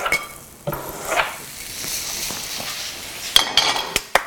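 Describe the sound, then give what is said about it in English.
Onion dropped while cooking in a kitchen during Thanksgiving leftovers preparation: a few sharp knocks and clatters near the end stand out over low, hissy sizzling and faint utensil noise. “Sorry, dropping onion.”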